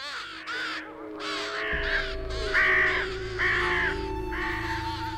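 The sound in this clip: Ravens calling in a rough, repeated series of harsh, hoarse caws that follow one another closely and stay fairly loud, with no voices present.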